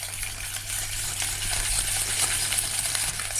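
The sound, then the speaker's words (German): A wire whisk beats an egg yolk with a little sunflower oil in a bowl for mayonnaise, giving a steady, fast, continuous scraping and clinking with a low hum underneath. “In einem Messbecher befinden sich 200 Milliliter Sonnenblumenöl, von dem er ein wenig in eine Schüssel gibt, in der sich ein Eidotter befindet. Mit einem Schneebesen beginnt er zu schlagen.”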